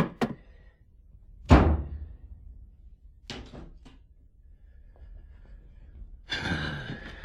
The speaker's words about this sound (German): Sag mal, was war denn das für ein Knall? Knall? Achso, die Schlafzimmertür, die ist in der Zugluft zugeknallt.